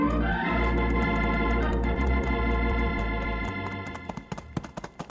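Hoofbeats of a company of horses galloping over a long ride: a rumbling gallop runs under a sustained musical bed, which then fades, leaving a few loud, irregular clip-clop hoof strikes near the end.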